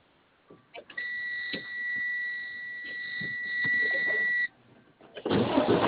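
A car's engine is started remotely after being unlocked. A steady electronic tone holds for several seconds and stops, then rough engine noise swells as it starts, with a narrow, telephone-like sound.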